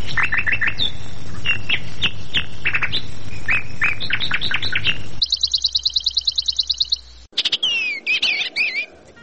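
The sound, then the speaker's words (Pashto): Bright bird song: repeated chirping phrases, then a fast run of evenly spaced high notes, then sharp chattering calls. The song is loud and clear throughout, with no talking. “دا مرغه د خپل څښتن په غوښتنه یو داسې سندره غوي چې بل څوک یې له اورېدو سره سم ویده کیږي”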